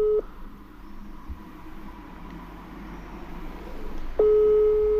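Telephone tone from a call that goes unanswered: a brief tone at the very start, then a steady, fairly loud tone sounding from near the end, over a low, constant background hum.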